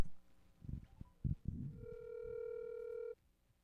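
A telephone ringing on an outgoing call, heard as one steady buzzing ringback tone held for over a second before cutting off, after a few brief muffled knocks.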